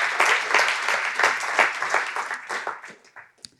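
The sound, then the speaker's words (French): Church audience applauding to acclaim Jesus: a dense, steady wash of many hands clapping that thins out and fades near the end, leaving a few scattered claps. “est-ce que pour ça, on pourrait vraiment acclamer Jésus qui nous a adoptés et qu'aujourd'hui, on a un héritage avec Dieu?”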